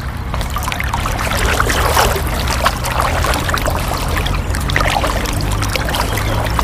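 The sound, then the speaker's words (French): Water sloshing and splashing as someone walks through floodwater on a path that is normally dry. The watery swishing runs steadily and fairly loud throughout over a low rumble, with no talk. “Alors là, on commence déjà à marcher dans l'eau. D'habitude, ça, c'est un chemin qui est tout sec.”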